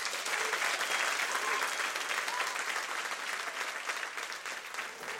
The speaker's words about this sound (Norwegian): Men nå en stor applaus til kveldens gjest, Jørn Hurum.